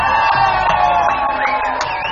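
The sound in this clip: A crowd cheers and whoops at a live radio event with an organist. The noise is loud and continuous, with a few rising whoops and yells standing out over the dense roar of voices.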